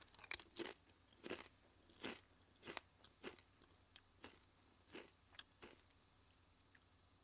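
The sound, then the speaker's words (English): Crunching and chewing of pizza-flavored chips: many sharp, crisp crunches at irregular intervals, each biting down through the chips, fairly faint and heard alone without talk. “Looks like a barbecue chip, actually. If this tastes like barbecue, I'm going to be mad. Because it's supposed to taste like pizza.”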